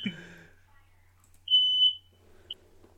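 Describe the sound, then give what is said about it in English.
A smoke or fire alarm gives one long, steady high-pitched beep and then a short second beep. A brief voice is heard at the start, and faint low hum sits underneath. “That was the fire alarm you heard in the background.”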